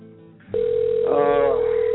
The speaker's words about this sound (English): Why is our phone ringing?